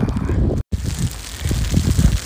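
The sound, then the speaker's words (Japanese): Wind blowing outdoors as snow and sleet begin to fall: a steady, low, rough rushing with gusty swells. “はい雪降ってきました寒くなってきました風が吹いてきました”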